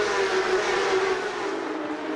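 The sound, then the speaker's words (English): Michelin tyres squealing on Porsche Carrera Cup race cars at Indianapolis, a steady high whine laid over a continuous engine roar for about two seconds. “the crying that we are hearing out of these Michelins already early on in the race”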